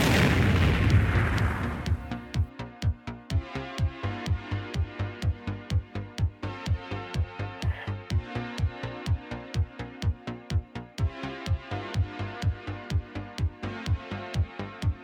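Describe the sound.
Sonic boom sound effect: a deep, broad blast with a rumbling tail lasting about two seconds, followed by a steady rhythmic musical beat.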